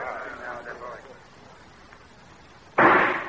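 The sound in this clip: A single gunshot is fired at a target during a shooting contest: one sharp, loud blast with a short rumbling tail near the end, following quieter speech.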